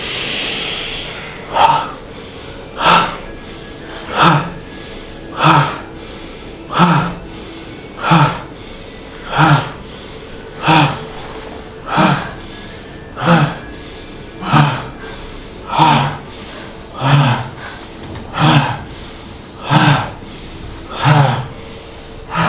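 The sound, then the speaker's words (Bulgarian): Bhastrika pranayama, a forceful yogic breathing exercise: loud, sharp, whooshing breaths that repeat in a steady, even rhythm, many in a row, over a faint steady background tone. “Влез в бастрика прана яма. За мъничко. За няколко минутки буквално.”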